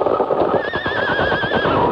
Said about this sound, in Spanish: El estupendo caballo palomo se alzó en mano repentinamente. Parecía una blanca torre parada en sus patas traseras.